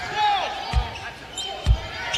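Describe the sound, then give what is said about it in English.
A basketball is dribbled on the court during a game, with two low, dull bounces under an announcer's ongoing commentary. “Dribbling around right here in front of us is Darius Lee”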